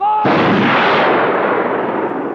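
A firing squad fires in a film scene as a single loud, sharp volley, followed by a long, rumbling decay that fades slowly.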